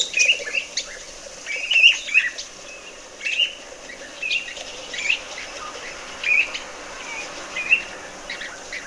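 Bird song with trills: short, high chirping and trilling phrases repeat every second or so over a steady, soft background hiss, each burst standing out clearly.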